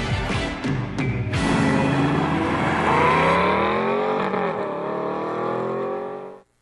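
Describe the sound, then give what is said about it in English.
An Aston Martin V12 engine revs loudly: a rich, harmonic roar climbs and swells in pitch, holds at a high whine, then cuts off abruptly at the end. “Nothing quite like the sound of a V12 motor, huh?”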